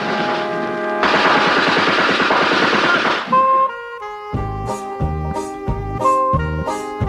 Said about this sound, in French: L'épisode se termine par un affrontement à coups de mitraillette, exactement comme dans la série américaine.